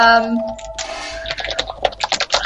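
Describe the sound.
Typing on a computer keyboard while people talk: after a voice at the start, a busy, fairly loud clatter of rapid key taps follows in uneven clusters.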